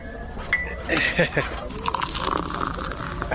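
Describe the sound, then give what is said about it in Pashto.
Tea poured into a cup, a soft liquid stream running in the second half while people talk over it. “صبر چې یوه پیاله چای درته واچوم”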